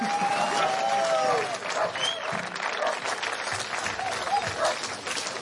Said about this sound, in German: Und ich bitte um einen riesengroßen Applaus für Dietmar Wischmeier.